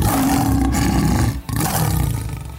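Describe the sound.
A lion's roar: loud, deep and rumbling, sustained with a brief break partway through, then continuing and tapering slightly at the end, heard alone without talk.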